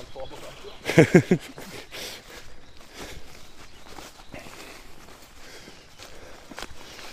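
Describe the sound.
Footsteps of someone walking a detour through a garden: a quick, louder cluster of a few steps early on, then soft, faint steps continuing under low background sound.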